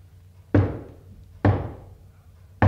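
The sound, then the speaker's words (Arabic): Heavy knocking on a door: three loud, dull thuds spaced about a second apart. Each blow has a sharp onset and a short decaying rumble, heard alone with no voices. “دي خبطة عالي، افتح”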